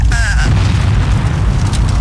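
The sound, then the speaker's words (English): A volcano blast sound effect: a deep, loud booming rumble that holds steady for the full two seconds, with a brief higher tone near the start. “I'll blast here. Hiking up a volcano with a $25,000 cash blast. Little smoke up here.”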